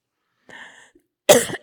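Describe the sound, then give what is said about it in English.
A single sharp cough from a speaker with a tickle in the throat, preceded by a brief, soft voiced throat sound and a short silence, then a loud, rough burst that tails off. “I'm sorry for my cough.”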